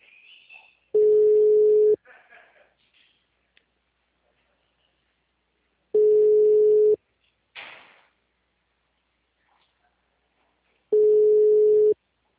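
Ringback tone of an outgoing telephone call: three steady, low one-second beeps spaced about five seconds apart. Brief rustling and handling noises fill the quiet gaps between beeps.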